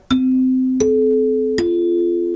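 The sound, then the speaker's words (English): Three broadcast chime notes struck by hand with a mallet, copying the electronic radio network chimes. Each clear, ringing tone sustains into the next, and the second note sits highest. “You did that yourself with a mallet. That's right. We don't have a set of the electronic Ranger chimes. And you recognize those notes.”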